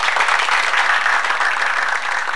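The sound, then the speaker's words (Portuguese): Applause from a group of people clapping to praise a barber, a loud, dense and continuous patter of many hands that stays even throughout and eases slightly near the end. “Vou até bater palma pro senhor, porque o senhor merece, viu?”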